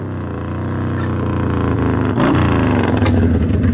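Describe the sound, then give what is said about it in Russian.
A motorcycle engine pulls up from the far side of a yard, a steady throbbing, rumbling drone that grows somewhat louder partway through and keeps running to the end. “С той стороны двора подъехал мотоцикл.”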